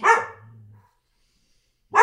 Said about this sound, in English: Dog barking.